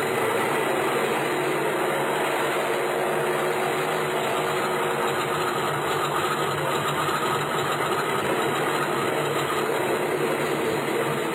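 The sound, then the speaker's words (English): Aircraft engine running on a small passenger plane carrying mail and express as it prepares for takeoff, a dense, constant roar with no breaks. “You want to take off, eh? I will take off.”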